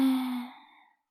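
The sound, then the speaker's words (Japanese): A forceful exhale through the mouth during a breathing exercise: a single long, breathy rush of air that starts strong and fades out over about a second. “もう一度思いっきり吐いてください。吐き切って、”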